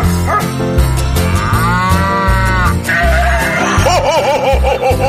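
Farm-animal calls, including a low moo, sound loudly over a steady musical backing in a Christmas farm song, with wavering voiced cries near the end.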